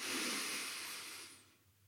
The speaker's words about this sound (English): Whenever you get too stressed out, just stop, take a moment, breathe in,